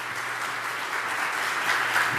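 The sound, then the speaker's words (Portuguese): A crowd applauds in a church during a Sunday morning service. The dense, steady clapping holds evenly and swells slightly toward the end. “Palmas para a Aninha aí.”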